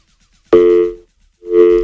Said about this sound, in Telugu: Okay, మీ call disconnect అయిందండి, మళ్ళీ వెంటనే కాల్ చేసేయండి.